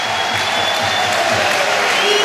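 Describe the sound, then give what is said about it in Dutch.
A football stadium crowd applauds as a Union Saint-Gilloise striker comes on as a substitute in a Jupiler Pro League match. Steady, dense clapping and crowd noise swell slightly toward the end. “Luid applaus voor de man die op het WK was na zijn blessure.”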